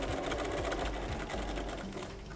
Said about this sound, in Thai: แล้วเราก็วางลงเราก็เย็บนะคะมันถึงจะเย็บได้สุด